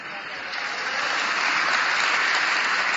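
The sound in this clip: A crowd clapping in a hall, the dense applause swelling after the first half-second and then holding steady as a continuous roar of claps.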